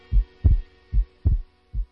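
Heartbeat thumps play as a sound effect: five deep, low thuds in an uneven lub-dub rhythm, each a soft, muffled pulse over a faint steady hum.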